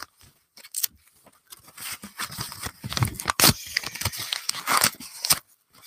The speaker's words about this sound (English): hand shredding my tax form. I hope that this is good ASMR too. Here we go. Rip.